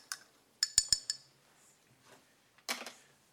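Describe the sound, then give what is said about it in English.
A spoon clinks against a container while something is stirred, giving a few bright, sharp metallic taps close together, then a pause and one more clink. “Let me just give that a stir.”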